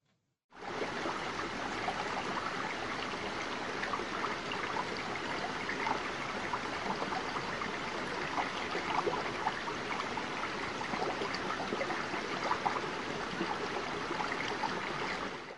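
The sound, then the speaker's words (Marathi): Murmuring river water at a three-river confluence, a steady, even rush of broad noise that starts abruptly and flows on unbroken and fairly soft throughout, with no voices. “तेथील नदीचे विशाल पात्र, शांत आणि पवित्र वातावरण, नदीच्या पाण्याचा कलकल असा आवाज,”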